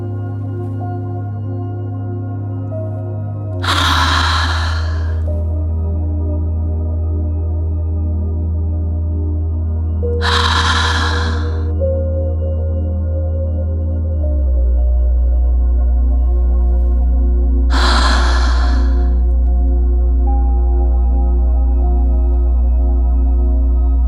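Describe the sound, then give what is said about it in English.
Three deep breaths are taken during a guided meditation, each let out with a soft sighing exhale, spaced several seconds apart over a steady low drone. “Let's take 3 deep breaths, exhaling each time with a sigh.”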